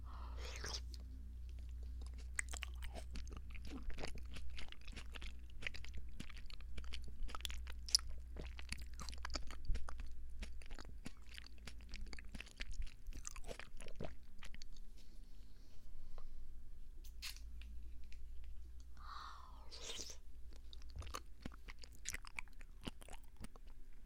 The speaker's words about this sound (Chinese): 再吃这块。哇，这是一大口